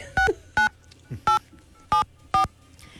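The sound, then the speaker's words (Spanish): Telephone keypad dialing tones on a call-in line: five short, crisp dual-pitch beeps at an uneven pace, each steady in pitch, over a low background hum. “Entonces, pónganme a marcar ahí.”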